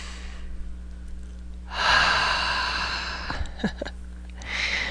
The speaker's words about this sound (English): Let's take some deep breaths, please. In through the nose and out through the mouth is the way I like to do it anyway.